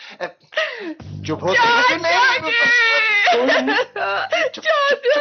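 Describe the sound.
A woman cries loudly and almost without pause, her high wavering wails and whimpering sobs running through choked words, broken by short catches of breath.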